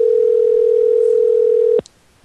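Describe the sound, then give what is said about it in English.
A telephone dial tone plays when calling a phone: a loud, steady, unbroken hum that cuts off abruptly with a click near the end, leaving near-quiet. “But let's call Cody's phone here. See what we get here. Let's listen, everybody. Let's call Cody. See what we get here. See what happens.”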